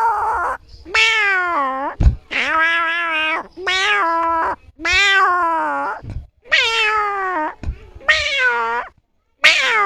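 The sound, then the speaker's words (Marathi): A person imitates a cat meowing with a run of drawn-out, nasal meows. Each call is clear and tonal with a wavering pitch, and the calls are separated by short gaps. “आणि तुम्हाला सगळ्यात आवडणारा आवाज कुठला? आवाज मांजराचा.”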